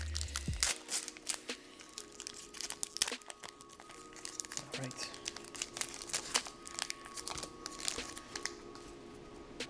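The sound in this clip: Faint, steady crinkling of plastic wrapping from trading card packs in a 2018-2019 box, with many small crackles and tearing rustles throughout and quiet speech at times.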